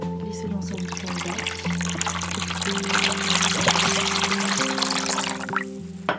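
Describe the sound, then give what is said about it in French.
Liquid pours and swishes as water is mixed with ascorbic acid and sodium carbonate, a steady watery noise lasting throughout with steady tones underneath. “Et donc, je mélange là l'eau, l'acide ascorbique et le carbonate de soude.”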